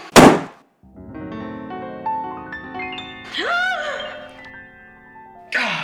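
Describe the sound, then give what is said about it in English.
A loud, abrupt gunshot bursts out in a radio drama and gives way to a sustained, rising musical sting. Another sharp noise comes right at the end. “She shot herself.”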